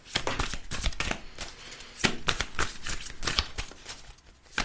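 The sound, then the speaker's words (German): A deck of soul cards being shuffled by hand, giving a steady run of many quick, crisp riffling and rustling bursts with no talk over it. “Da werden wir jetzt mal mischen und gucken, was wir hier an Karten für den Februar haben.”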